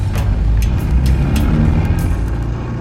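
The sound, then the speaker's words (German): A car accelerates and overtakes at night in a Mexican desert narco stronghold, a loud, steady engine roar with low rumble that holds throughout without a clear break. “Der Narko gibt Gas, überholt uns und entschwindet in die Nacht.”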